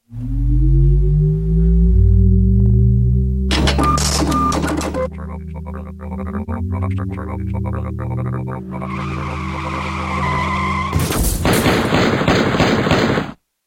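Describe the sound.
Gunfire aimed at a computer: a low, droning machine tone with mechanical whirring and chattering, broken by two loud, noisy bursts of shots, the second running nearly to the end.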